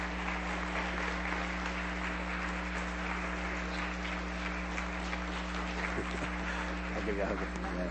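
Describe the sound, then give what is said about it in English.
An audience in a church applauding to welcome a guest speaker: dense, continuous clapping that holds steady throughout, with voices mixed in and a low steady hum underneath. “Come on, let's give her a great big hand. Come on, stand. Let's give her a great big hand as she comes this morning.”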